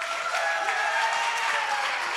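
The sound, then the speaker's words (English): Applause from an audience at an awards event, greeting a former band before an honorable mention award: a dense, even wash of clapping that holds at steady loudness for all two seconds. “So big round of applause for our former band, the Scholars.”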